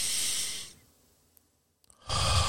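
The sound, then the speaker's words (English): Deep breathing in and out, shown as a calming technique: a long, loud, airy breath, then a quiet pause, then another strong breath rushing in. “Deep breath, breathe in and out. And it goes something like this.”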